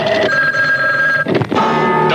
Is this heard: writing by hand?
no